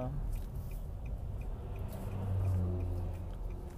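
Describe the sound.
A car being driven gives a low, steady rumble of engine and road noise, faint and continuous, swelling slightly for a moment midway.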